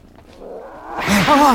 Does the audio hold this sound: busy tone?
no